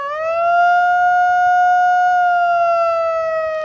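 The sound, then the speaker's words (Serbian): Siren sounding at a protest on Trg Slobode in Novi Sad, a loud sustained wailing tone with bright harmonics that holds a nearly level pitch throughout, with no voices. “Protest je počeo na Trgu Slobode sirenama, a potom je održan minut ćutanja.”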